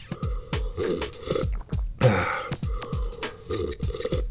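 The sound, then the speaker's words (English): Drinking tea: many quick gulps and slurps in a steady rhythm, each with a soft low throaty swallow. “I'm going to have some more tea now.”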